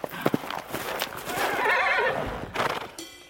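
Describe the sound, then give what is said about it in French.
A distant horse's whinny, long and wavering, joined by a pony's galloping hoofbeats as sharp clip-clop thuds before and after the neigh. “Un hennissement lointain lui répond.”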